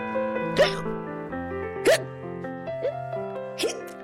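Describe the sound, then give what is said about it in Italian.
A hiccup sound effect played over a steady music bed, four short, sharp hiccups spaced unevenly and standing out above the backing tune. “C'è pure il singhiozzo oltre a essere intasato.”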